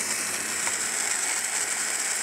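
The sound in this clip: Olive oil and butter sizzling in a pan: a loud, dense, steady hiss that stays even and unbroken from start to finish, with no voices.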